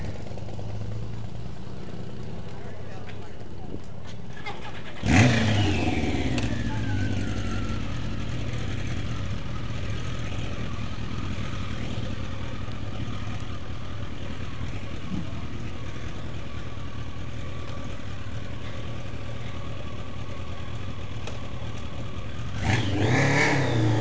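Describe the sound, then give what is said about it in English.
A BMW motorcycle with a sidecar runs its engine at a steady, throbbing idle, with a sharp rev burst early on and another near the end. “Not a BMW rally. BMW sidecar.”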